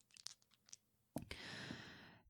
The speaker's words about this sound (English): We have to throw the dice again. Okay. Here we go.